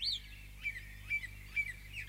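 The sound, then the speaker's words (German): Birds singing in a forest: a few short, high chirps spaced roughly evenly apart, faint and alone over a quiet, steady low hum. “Spricht aus dem Gesang der Vögel wohl Gott zu mir?”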